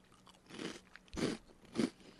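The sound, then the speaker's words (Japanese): Three crisp crunches come from biting and chewing a bite-size, chili-flavoured snack. Each crackly snap is sharp and close, separated by short pauses, and the third is the loudest. “いい音ですね。音もうまい。音もうまいよ、今のところ。 おいしい。なんか唐辛子って感じじゃないけど。”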